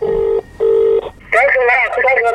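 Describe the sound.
A telephone call to a grandfather: two steady electronic ringing tones separated by a short gap, then a voice answers and talks.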